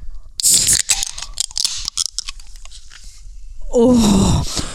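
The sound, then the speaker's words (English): Two cans of Bud Light Platinum Seltzer cracked open together, a sharp pop and bright fizzing hiss followed by scattered crackles, then a short vocal sound near the end. “First, let's crack open a delicious Bud Light Platinum Seltzer.”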